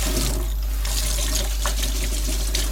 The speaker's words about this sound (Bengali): বাসনগুলি ধুয়ে ফেললেই আর খুব একটা কাজ নেই